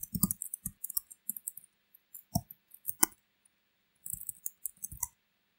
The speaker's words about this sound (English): And click submit. So now I can go on and sign in.